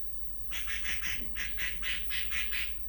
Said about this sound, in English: That's some bird there.